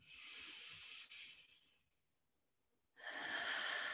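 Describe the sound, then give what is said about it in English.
Slow, deep breathing during a guided meditation, a soft airy hiss that lasts about two seconds, fades into a quiet pause, then swells again as another long breath begins. “So breathe that medicine in”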